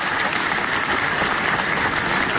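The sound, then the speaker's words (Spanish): An audience applauds in a theatre at the closing ceremony of an international reading and book fair in San José, a continuous, even patter of many hands clapping at a moderate level. “Quiero agradecer y pedir también el reconocimiento a través de un aplauso a Celeste Verges, a Leonardo Luca, a Julio Pesa.”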